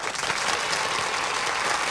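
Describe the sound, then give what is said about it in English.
Applause from an audience at an award ceremony for the Outstanding Custodian of the Year, dense and steady clapping at an even level for the whole two seconds, with no talk above it. “let's give a big hand and a warm water squeegee welcome for the Outstanding Custodian of the Year, Bernard Walton.”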